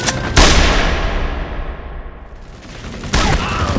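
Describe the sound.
Heavy gunfire laid down as cover fire: a loud burst of shots near the start, a dense, sustained rumble of firing, then a second loud burst near the end.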